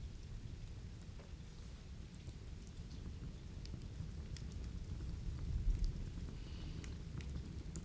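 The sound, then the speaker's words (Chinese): Rain falls in a dense, even patter with a soft low rumble beneath. It stays quiet and continuous throughout, with no voices. “听见了什么？雨声？还有什么？”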